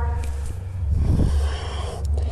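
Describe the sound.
A breath exhaled during a yoga exercise: a soft, breathy rush of air that swells and fades over about a second, set against a low steady hum.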